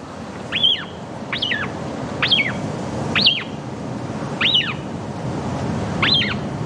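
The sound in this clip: Six short, high whistled calls from an Atlantic shearwater chick in its nest. They are evenly spaced, each a quick warbling up-and-down note, over a steady low hiss.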